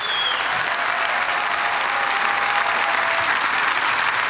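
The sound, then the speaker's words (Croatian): A concert audience applauds a jazz orchestra and the string players of a symphony orchestra, a dense, even wash of clapping that holds at a steady level throughout. “I naravno svi ovdje, molim vas veliki aplauz.”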